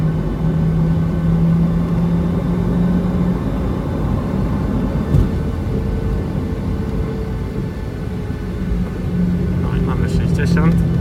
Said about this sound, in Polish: Dojeżdżamy do pasa, zwalniamy. Zaraz będziemy startować. No, jesteśmy już bardzo blisko pasa.